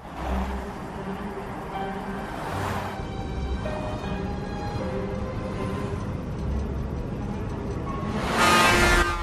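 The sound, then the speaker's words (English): A car drives through highway traffic at sunset among mountains, a steady engine hum under the wash of the road, with other vehicles whooshing past, the loudest pass coming near the end. “The sun sets over the mountains, and the car is making its way through traffic on the highway.”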